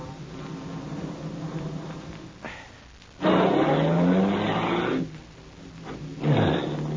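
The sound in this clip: A car turns around at a dead end beside water in a radio crime drama: a steady engine hum gives way to a loud surge with squealing tires, then a pause and a shorter second squeal.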